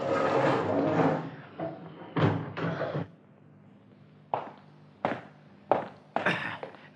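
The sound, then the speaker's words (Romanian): A prison cell door in the Bastille is opened: a long heavy rumbling clunk, then a series of sharp knocks and thuds separated by quiet gaps. “Am ajuns. Aceasta este celula regelui Bastiliei. Da, deschide, comandant.”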